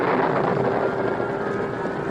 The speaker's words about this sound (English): The cattle were already milling, and at that moment, the storm broke in all its fury.